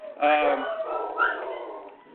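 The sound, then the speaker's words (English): Dogs are heard howling and whining, starting with a short, high, wavering howl and trailing off into softer whimpers that fade toward the end. “my dogs want to be guests on the show, as you can hear them howling in the background”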